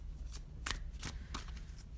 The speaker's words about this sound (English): And this card that I pulled out is going to help guide you to manifest that.